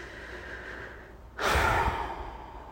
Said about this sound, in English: Another long deep breath.